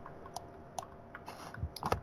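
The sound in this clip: A few faint, irregular keystrokes on a computer keyboard as someone looks something up, quiet clicks spread apart with pauses between them.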